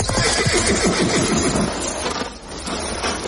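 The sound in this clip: A horse neighs loudly in a long, harsh whinny over a dense, noisy background that fills the whole clip.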